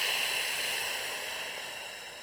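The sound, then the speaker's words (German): Slow exhale through lightly closed lips in lip-brake breathing, a soft, even breathy hiss that gradually fades over about two seconds. “Mit der Lippenbremse kannst du das Entweichen des Atems etwas besser kontrollieren. Ein bisschen, als wenn du eine Kerze auspustest.”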